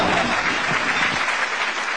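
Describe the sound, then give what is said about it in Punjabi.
An audience breaks into applause, a brief burst of dense, even clapping that holds at a steady loud level. “ਮਾਰੋ ਤਾੜੀਆਂ ਜੇ ਗੱਲ ਜੱਚ ਗਈ ਏ, ਦਿਓ ਸ਼ਾਬਾਸ਼ ਵਾਹ ਵਾਹ ਕਰਕੇ”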